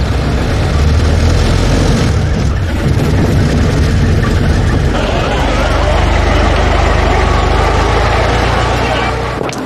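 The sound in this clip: A car engine is pushed to accelerate, giving a loud, continuous rumble with broad roaring noise that carries steadily through the whole stretch without breaks.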